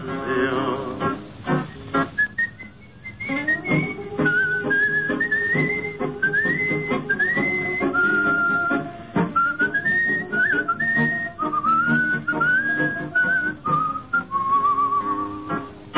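A person whistles a melodic tune in clear, sliding phrases with short pauses between them, carried over sustained lower tones that run underneath throughout.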